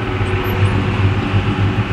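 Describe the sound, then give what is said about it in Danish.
A tractor out driving gives a steady, loud engine rumble with a throbbing low drone and broad mechanical noise, continuous throughout without talk. “Ja, sådan lyder det altså fra Søren Højer Thomsens traktor, som i øjeblikket er ude at køre.”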